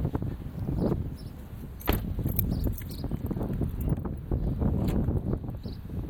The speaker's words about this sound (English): That wind's terrible. Don't even have any cover.